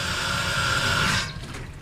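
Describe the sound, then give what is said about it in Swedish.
Water spraying from a garden hose during a test of its flow and force: a steady, loud rushing hiss that cuts off abruptly after a little over a second, leaving quieter noise behind. “Och det var just det som jag ville testa, hur bra flöde det är och hur mycket kraft det finns i den här slangen.”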